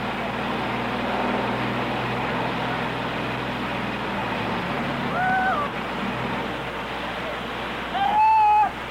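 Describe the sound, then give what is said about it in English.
The grinding of an electric generator powering an electric chair at an execution, a steady and loud low droning hum that runs throughout, with a couple of brief whistling squeals late on. “And I think perhaps the best thing we could do to just hang this mic over and pick up the grind of that generator so that we'll be sure and pick it up.”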